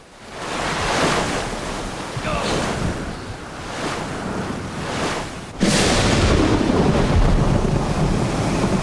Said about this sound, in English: They are battered by the waves and struggle to remain upright.